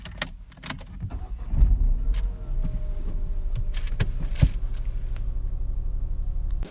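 A car's engine hums with a steady low rumble, with a few sharp clicks and knocks early on and one louder thump midway.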